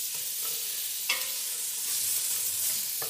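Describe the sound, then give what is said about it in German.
Coarsely chopped carrots sizzle as they roast in a pan, a steady bright hiss broken by a couple of brief stirring scrapes. “Ich finde es auch ganz gut, das immer so ein bisschen anzurösten. Ich glaube, ich tue die Karotten schon mal auch mit dazu.”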